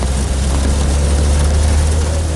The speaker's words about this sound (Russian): По дороге едет грузовик с разбитым бортом.